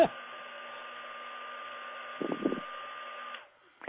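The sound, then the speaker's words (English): An iTeraCare device is switched on and blows air like a hairdryer, making a steady airy whir with a fixed tonal hum. It runs evenly for a few seconds, then cuts off abruptly. “you turn it on and you just start blowing it just like it's a hairdryer. It reminds me of a hairdryer. I'm going to turn it on so you can hear it just a minute. Oh, it sounds just like a hairdryer.”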